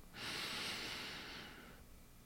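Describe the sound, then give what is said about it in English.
A long, slow, deep breath drawn in: a soft, airy hiss that swells quickly, holds steady for over a second, then fades gradually. It is quiet and heard alone. “Now let's take a long, slow, deep breath in.”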